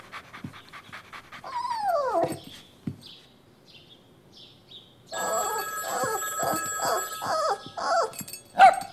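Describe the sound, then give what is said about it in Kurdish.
A cartoon dog pants and gives high whining calls, the first sweeping downward in pitch, followed by short breathy bursts; partway through, a sustained ringing tone like a telephone bell joins under further rapid panting. “سەیری سەگەکە بکە، بازایە.”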